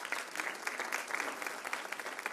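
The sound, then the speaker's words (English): Audience applause during a sermon, a dense, steady patter of many hands clapping at an even level throughout, with no voices standing out. “That's a good place to clap.”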